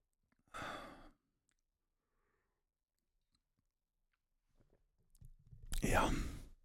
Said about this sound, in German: ich trinke in der Zeit einen Schluck Tee.